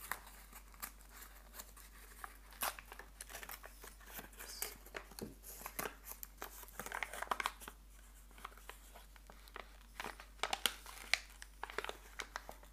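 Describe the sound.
Paper crinkling and rustling as a package from a monthly travel-themed subscription box is unwrapped. Many small, faint crackles and crisp tearing sounds come in an uneven, continuous run.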